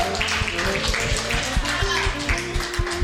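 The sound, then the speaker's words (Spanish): Applause for a female colleague: a brisk patter of many hand claps, with voices talking over it. “Un aplauso para la compañera.”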